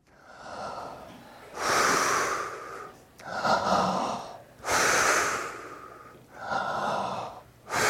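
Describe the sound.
Heavy, loud breaths rasp in a slow, regular rhythm, about five long airy breaths with short gaps between them.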